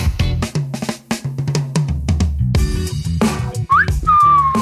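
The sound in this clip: Whistling: a short upward-gliding whistle near the end settles into a held high note, heard over loud rhythmic background music.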